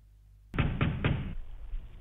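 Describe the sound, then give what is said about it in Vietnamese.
Someone bangs on a door, with three loud, heavy blows in quick succession, then a low, dull rumble lingering afterward. “Thế nhưng hôm nay lại có thằng điên nào khi nghe nó chửi mà vẫn cứ đang ngang nhiên đập cửa.”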